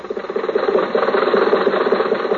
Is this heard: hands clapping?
no